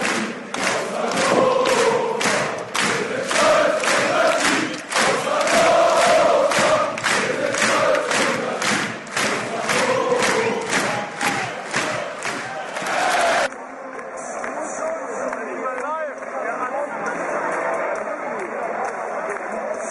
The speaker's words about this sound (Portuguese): Nós vamos ouvir uma música, inclusive, curiosamente, num outro jogo contra o Bochum, Bochum versus Hannover, onde ela canta essa canção.